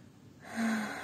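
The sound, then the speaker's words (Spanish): A single deep breath drawn in through the nose during a guided breathing exercise, rising from near silence into a steady airy rush that lasts about half a second. “volviendo a hacer unas respiraciones profundas, inhalando por nariz,”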